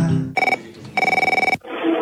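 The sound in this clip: An electronic telephone rings in two warbling, trilled bursts, the second longer than the first, separated by a brief gap and followed by a short noisy shuffle.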